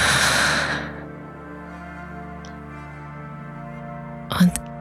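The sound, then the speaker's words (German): A deep breath is drawn in, filling the belly during a guided breathing exercise: a brief, breathy rush of air at the start that fades into soft, sustained calm musical tones. “Nimm einen tiefen Atemzug und einatmen tief in deinen Bauch”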